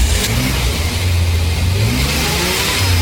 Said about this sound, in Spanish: Estamos en plena calle haciendo la nota a un excelente motor a quien ya preguntamos cómo se siente.